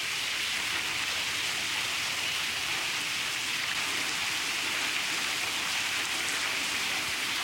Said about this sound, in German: Und hier wirkt es jetzt gerade so, als ob noch ein zweites Gewitter jetzt durchzieht, weil der Regen nimmt wieder zu.